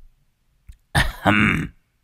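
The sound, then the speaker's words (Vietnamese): A man clears his throat outside a gate with one short, gruff, rasping burst in two quick pushes, loud and alone with no talk. “Đang lúc đứng nghĩ ngợi ung dung, ở bên ngoài cổng bỗng có tiếng hắng giọng.”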